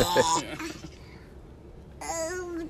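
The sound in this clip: A man babbles in a tantrum in the background, letting out garbled, excited vocal bursts at the start and again at the end, with a quieter lull between them.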